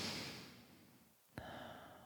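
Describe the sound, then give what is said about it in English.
A person breathing out in a long, soft exhale during a guided breathing exercise. A brief pause follows, then a sudden intake of breath and steady, quiet breathing. “And now breathe out. And now breathe normally, just normal respirations.”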